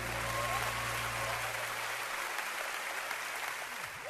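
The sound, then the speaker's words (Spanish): Applause for a performer: steady, dense clapping throughout. A low, sustained musical tone sounds beneath it at the start and fades away partway through. “Un aplauso para Daniel.”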